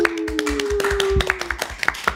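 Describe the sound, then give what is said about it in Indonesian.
Quick, crisp hand clapping greets a special guest on an Indonesian talk show, many sharp claps in a brisk, slightly uneven rhythm over a faint low steady tone. “Applause, applause. Applause guys, bukan oplos.”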